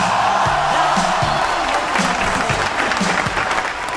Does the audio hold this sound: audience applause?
yes

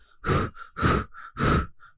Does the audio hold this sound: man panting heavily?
yes

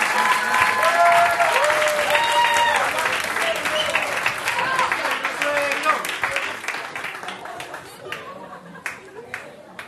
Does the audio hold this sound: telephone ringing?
no

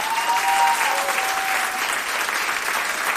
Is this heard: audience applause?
yes

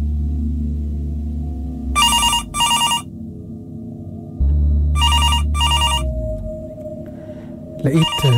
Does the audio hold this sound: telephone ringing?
yes

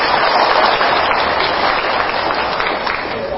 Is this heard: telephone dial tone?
no

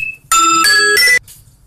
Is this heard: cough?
no

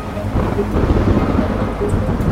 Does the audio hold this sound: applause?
no

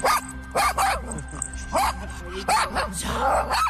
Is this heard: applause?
no

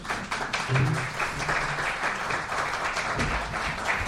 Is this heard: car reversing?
no

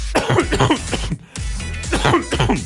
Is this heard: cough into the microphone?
yes

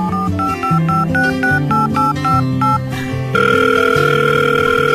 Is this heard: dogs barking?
no

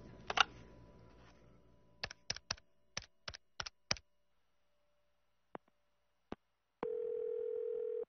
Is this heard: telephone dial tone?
yes

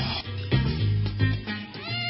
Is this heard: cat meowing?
yes

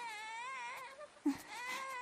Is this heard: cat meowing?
no

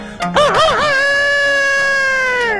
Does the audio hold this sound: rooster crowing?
yes

